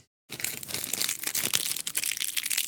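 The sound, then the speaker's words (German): Crinkling of protective plastic foil being peeled off a new door-handle ashtray in a Bentley car, a dense, continuous crackle of many small crisp rustles that starts abruptly after a brief silence. “Oh, warte, jetzt. Mal die Folie.”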